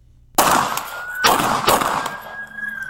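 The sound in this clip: Three sharp gunshots crack out in a fight, the first after a moment of quiet and the others close together, each a loud burst that rings off, with a thin steady high-pitched tone lingering behind them.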